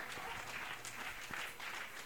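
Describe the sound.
Audience applause at a poetry reading, a dense steady patter of many hands clapping throughout at moderate volume, with no voices over it.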